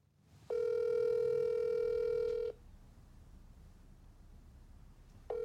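A Skype call rings with a steady electronic tone. One tone lasts about two seconds, then a pause, and the next tone begins at the end.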